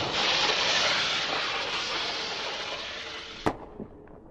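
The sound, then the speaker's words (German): A cartridge is ignited and fired: a long rushing hiss builds and holds, then a sharp loud crack cuts in, followed shortly by a smaller pop as the noise drops away. “Eigentlich könnten wir gleich eine zünden. Dann los. Okay, die Patrone rein. So. 3, 2, 1, 0 und Feuer!”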